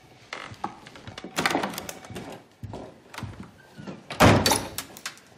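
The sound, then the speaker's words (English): A 335-year-old doorknob breaking off a door in The Social Network: rattling clicks and clunks of handling, a heavier burst of knocking in the middle, then a loud clattering crack near the end. “Whoops. Broke a 335-year-old doorknob.”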